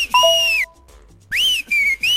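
Loud, shrill whistles come in a few bursts with a short gap after the first. Each high tone swoops up and then glides down. No talk is heard.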